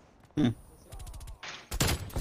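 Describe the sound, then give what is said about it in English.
Gunfire in a video game: a few sharp, loud bursts of shots, separated by quieter stretches where talk is heard. “Somehow I got shot in the back.”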